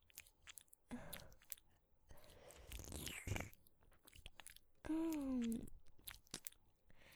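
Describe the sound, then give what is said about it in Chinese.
Wet tongue and mouth noises of ASMR ear licking, the tongue pushed deep into a listener's ear; soft, irregular slurps and smacks rise and fade, with short quiet gaps between bursts. “像这样用舌头深深地探入弟弟的耳朵里面”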